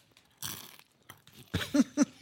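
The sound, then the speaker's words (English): Crunchy munching as someone chews, a few crisp crunches in quick succession standing out loudly against near silence. “Nice crunch. He's just munching.”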